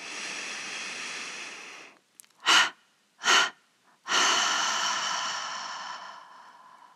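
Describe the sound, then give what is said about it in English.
Meditation breathing with a gentle inhale through the nose, then a triple exhalation through the mouth: two short, sharp puffs of breath followed by a final long exhale that slowly fades away. “And now let's release the observation of the breath with a gentle inhalation through the nose and a triple exhalation through the mouth, leaving that last breath out as long as comfortable.”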